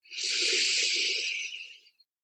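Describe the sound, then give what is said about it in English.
A single slow exhale during a guided meditation, a long, smooth breathy hiss that swells quickly, holds steady for nearly two seconds, then tapers off to silence. “and breathing out”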